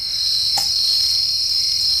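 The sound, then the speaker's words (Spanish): Crickets chirp in a dense, steady, high-pitched trill that holds without a break, loud and heard alone apart from one brief click. “Siguen los grillos, ¿verdad?”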